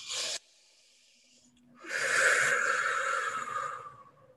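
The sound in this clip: A deep breath drawn in: a long, airy inhale lasting a couple of seconds, preceded by a short breathy burst and a brief pause.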